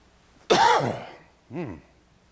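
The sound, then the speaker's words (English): A person coughs and clears their throat: a longer rasping, voiced burst, then a shorter, softer one after a brief pause. There is no other sound. “I don't know what got caught in my throat, but I wish it'd go away.”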